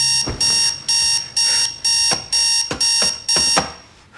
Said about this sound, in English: stretches over and thumps the alarm several times before slumping back onto her pillow